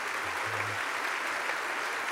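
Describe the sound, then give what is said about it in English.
Faint, steady applause from an audience welcoming back the India team, an even patter of clapping with no voices. “So put your hands together. Let's welcome back the India team.”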